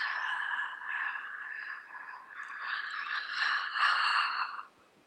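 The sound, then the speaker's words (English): A deliberately audible breath demonstrated for breathing practice, a steady airy rush lasting about four and a half seconds with gentle swells in loudness before it cuts off. “I'm making the noise. Normally you wouldn't need to make the noise. I'm making the noise so you understand. So you inhale.”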